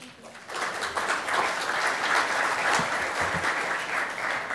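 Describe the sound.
Audience applause welcomes a panel speaker at a blockchain conference session. Steady, dense clapping rises within the first half second and holds at an even, full level to the end, with no voices standing out.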